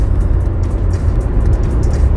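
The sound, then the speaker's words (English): Inside a car, a dense, steady low rumble of engine and road noise fills the cabin. The drone stays loud and even, with no distinct separate events. “I am in the car, another mobile episode.”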